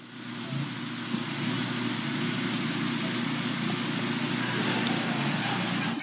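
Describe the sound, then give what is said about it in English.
A Bradco Boxer 320 compact utility loader runs with a steady, fairly loud engine drone over a low humming rumble that barely changes for several seconds. “And so I decided to rent the Bradco Boxer 320 compact utility loader from the Home Depot. And so I got that thing, and here's a little video clip of...”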